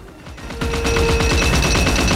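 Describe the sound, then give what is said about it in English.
Rapid, continuous automatic fire from a Gatling gun on a cockpit platform, shooting at a winged bicycle during an aerial battle. The dense stream of shots grows louder after the first half second and keeps going without a break. “Amazonia stands on the cockpit platform behind a Gatling gun. She fires on the bicycle, peppering the fabric on the wings with holes.”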